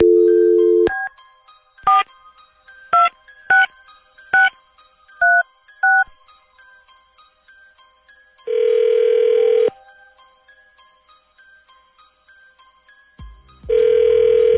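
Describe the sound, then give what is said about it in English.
Someone dials a telephone number on a touch-tone keypad. A brief dial tone is followed by a quick series of clear, pitched key beeps, then two long, loud ringback tones separated by quiet. “Dialing at random.”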